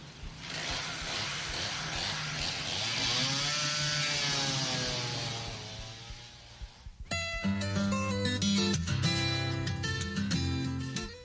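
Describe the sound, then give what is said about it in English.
A chainsaw trimming a tree, its engine roaring loudly, with the pitch swelling and easing as the blade works through the wood. After about seven seconds it gives way to a different, tonal sound. “Would you like to trim this tree now? I'll try. Then you can cut down the next one.”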